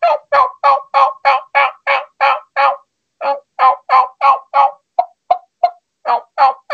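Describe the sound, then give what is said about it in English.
A turkey call sounds out a fast, rhythmic run of loud yelps, a brief pause, then more yelps mixed with shorter, clipped clucks, many evenly spaced notes with no talking. “you're doing those yelps and those little clucks, and he's coming, that's all you have to do.”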